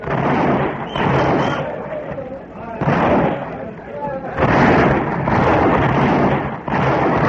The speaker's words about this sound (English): You may fire when ready, Gridley.